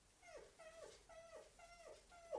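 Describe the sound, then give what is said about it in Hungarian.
A wounded dog, its thigh grazed by a bullet, whimpers faintly. Five short whines come in an even rhythm, each sliding down in pitch. “Hol találtad meg a kutyát, Üsti? A csősz kunyhó tövében. A sebét nyalogatta.”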